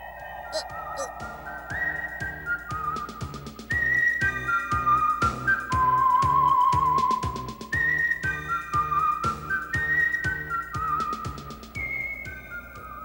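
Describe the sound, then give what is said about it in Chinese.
A person whistles a quick, bright tune meant to make a dinosaur dance. The melody moves between high notes over a steady, rhythmic musical backing, growing louder partway through. “吹口哨， 就是你叫快速龙跳舞时吹的口哨啊！快点啊！”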